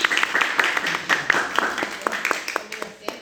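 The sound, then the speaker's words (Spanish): Audience applause after a courtroom-style oral litigation exercise: scattered, uneven clapping from a small group, sharp individual claps in a loose irregular rhythm at moderate loudness, with no one speaking over it. “Muy bien, muchas gracias a ambos. Un aplauso para ustedes.”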